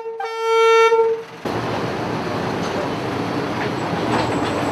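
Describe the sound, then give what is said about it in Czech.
A suspended deep-mine locomotive runs along an overhead ceiling rail at a technical museum in Kopisty. A loud, sustained harmonic horn-like tone lasts about a second, then gives way to a continuous rattling, rumbling run. “jízda závěsnou drážkou, což je vlastně lokomotiva, která jezdí po stropě.”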